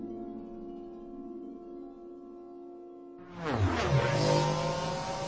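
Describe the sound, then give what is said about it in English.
Two speeder bikes ridden by sand people rocket away in a Star Wars effect. A low, steady hum is suddenly broken by a loud roaring engine surge, whose whining tone drops sharply in pitch before the roar holds on. “In the blackness to the north, Oren saw two sand people rocketing away on speeder bikes.”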